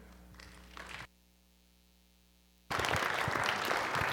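An audience welcomes a pastor at an evening church gathering with applause. A brief muffled sound is followed by about a second and a half of silence, then loud, dense clapping that stays strong to the end.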